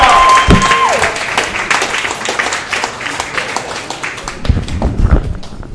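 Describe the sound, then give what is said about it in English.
Audience applause greets a stand-up comedian taking the stage at a comedy show: dense, steady clapping that holds for several seconds, with a few louder swells toward the end. “Give a big round of welcome to Joel Foreman, ladies and gentlemen. Give it up, JT Foreman.”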